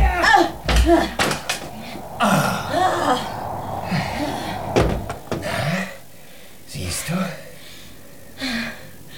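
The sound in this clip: Thumps and bumps of a stuck door being pulled at the bottom and pushed at the top, in a few uneven bursts amid strained gasps and vocal effort sounds.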